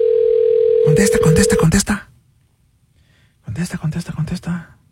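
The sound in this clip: A telephone ringback tone sounds during a call to a prize winner: one steady mid-pitched tone lasting under two seconds, heard under people talking, followed by a pause and more talking.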